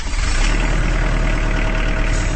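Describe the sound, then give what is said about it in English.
A Kubota Standard L compact tractor's diesel engine runs as the tractor rolls off an assembly line in Jefferson, Georgia, a steady, loud, low-heavy rumble that holds unbroken throughout with no talk. “That's the sound of a Kubota Standard L compact tractor, now rolling off the line from Kubota's assembly line in Jefferson, Georgia.”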